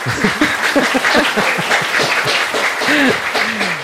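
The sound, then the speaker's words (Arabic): Clapping from a quiz audience cheering a correct answer, loud and continuous, mixed with voices and chuckles rising and falling over the applause. “برافو يعطيكم الصحة. تصفيقة”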